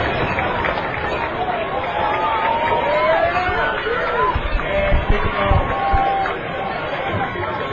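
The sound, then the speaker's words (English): Crowd cheering at a high school football game between Daniel and Shelby County late in a 57-54 contest: a sustained, loud roar of many voices that stays dense and steady, easing slightly near the end. “The Daniel crowd is just ecstatic. Shelby County crowd is just sitting over there dazed.”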